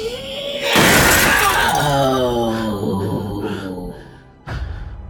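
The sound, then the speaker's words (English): First-floor glass windows shatter and burst outwards in a loud, sudden crash, followed by a sustained shrill, wavering tone that fades, then a second sharp burst near the end. “The shrill sound, coupled with the force of her voice, caused all of the first floor windows to burst outwards.”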